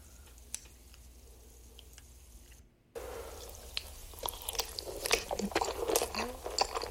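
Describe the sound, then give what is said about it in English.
Wet chewing and squishy mouth sounds from a man eating spicy mac and cheese, with many small clicks and smacks in a loose, uneven rhythm. The first few seconds are faint, then the eating grows louder. No one talks. “It's an ASMR, a guy eating nuclear fire, mac and cheese, mukbang, no talking. Good. Cooking and eating sounds.”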